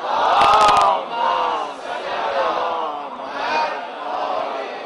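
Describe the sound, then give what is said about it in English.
Crowd loudly reciting salawat in unison, a dense mass of voices chanting in long, swelling phrases, loudest at the start and then rising and falling in several repeated waves. “Please, for all of them and for all of you, send a loud salawat.”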